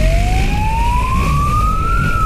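A police siren wails during a chase after a stolen, unplated motorcycle through heavy city traffic in Istanbul. The loud, single tone climbs steadily in pitch above a constant low rumble of traffic.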